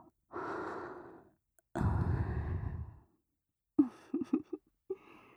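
Heavy, out-of-breath breathing: two long, loud, rasping breaths, then a cluster of short, choppy gasps and a softer final exhale, with no talking.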